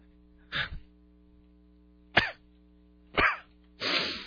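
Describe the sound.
Someone coughs and clears their throat, four separate harsh bursts with pauses between. The first is a quick double cough and the last a longer, rasping throat clear, with no talking.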